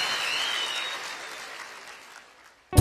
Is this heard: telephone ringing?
no